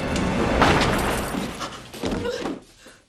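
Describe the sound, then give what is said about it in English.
Gunshot in a tense police confrontation scene from the film Basic Instinct: a sharp, broad blast early on, surrounded by dense, noisy sound that thins out toward the end. “Nick shoots Beth dead. In typical American cop style.”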